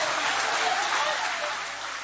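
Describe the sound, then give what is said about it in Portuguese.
Applause from a church audience during a religious radio service, a steady, dense wash of clapping that holds an even loudness throughout. “Podem aplaudir a Deus com alegria, pode glorificar ao Senhor.”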